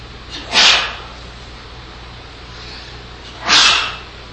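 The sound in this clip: Two sneezes, each a sharp, breathy burst, separated by a pause of about three seconds, with a quiet background and no talk.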